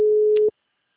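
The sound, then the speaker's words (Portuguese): A phone call's ringing tone sounds as a single steady, mid-pitched electronic beep lasting about half a second, then cuts off into silence. “Tá chamando, não tá tocando aí não?”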